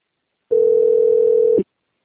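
A low, steady telephone tone plays while a call is connecting, one unbroken note lasting about a second and ending with a brief blip, with no talk.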